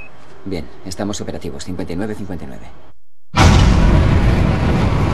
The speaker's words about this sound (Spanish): La tercera etapa pone en marcha su motor. El Apolo acelera gradualmente.